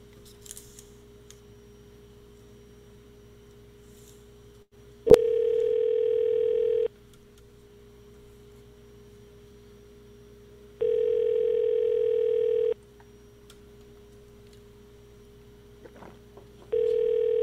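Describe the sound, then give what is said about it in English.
A telephone call is placed: a click, then repeated long ringback tones separated by pauses of a few seconds, with a third ring starting at the end over a faint steady hum. “Let's give him a call.”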